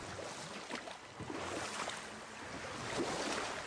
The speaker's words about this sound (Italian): di salire sulla nostra barchetta, affondare il remo in acqua e dirigersi verso il freddo e austero nord